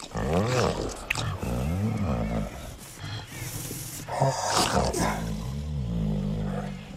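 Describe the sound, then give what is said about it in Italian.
A man's voice imitates the moaning of a male tiger before mating. Long, loud, growling moans waver up and down in pitch and run almost without a break. “appena riprodotto il verso della tigre maschio in amore prima della copula? Ma non dica stupidaggini, io non ho riprodotto proprio niente. Ma non faccio il modesto! Adesso sto imitando il tipico gemito che precede l'accoppiamento.”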